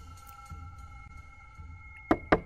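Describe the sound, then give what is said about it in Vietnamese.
Sharp, dry knocks on a rickety wooden door, struck from outside: a few quick raps near the end, standing out clearly above a faint steady hum. “ba tiếng gõ khô khốc vọng vào từ ngoài cửa làm lão rú lên, suýt ngã lăn ra đất.”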